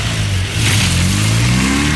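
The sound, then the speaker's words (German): A car engine revs as the car accelerates. The low rumble is loud and continuous, and its pitch rises slowly. “Jetzt einsteigen und Gas geben.”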